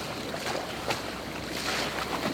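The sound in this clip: Sea waves around a boat, heard as a steady, dense rushing wash with wind noise, unbroken and fairly even in loudness throughout.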